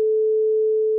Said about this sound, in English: And so a standard gets established from the French Conservatory of 435 cycles per second.